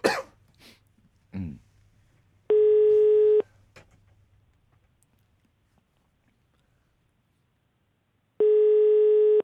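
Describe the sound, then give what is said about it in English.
A telephone call is being dialed: a few brief clicks and rustles come first, then two long, steady buzzing line tones with a pause of several seconds between them. “Now I'm dialing.”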